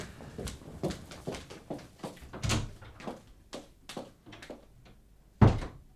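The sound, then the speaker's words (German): A door is opened and closed amid a run of soft thuds and clicks, with a sharper knock near the end. Everything is fairly quiet and no one speaks. “Nimm diese Tür dort.”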